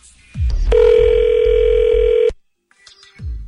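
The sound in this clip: Telephone tone as a call is transferred to voicemail: a steady, loud single-pitch tone holds for about a second and a half, then cuts to silence with faint clicks and low line noise.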